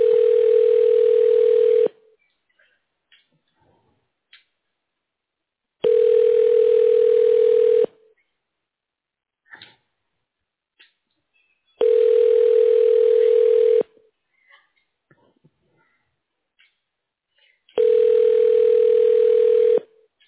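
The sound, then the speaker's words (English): Telephone ringback tone sounds while a call is transferred to a voicemail box: four steady, evenly spaced tones, each about two seconds long, separated by longer silences. “Let me transfer you over to her voicemail 1 moment.”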